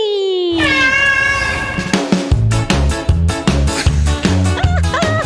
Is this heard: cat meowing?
yes